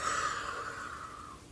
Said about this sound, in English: I really want you to breathe in through that mouth, sucking in that straw really, really wide.